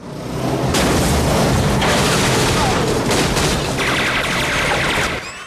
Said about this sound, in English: As three men shoot indiscriminately, bulldozing their way through the warehouse area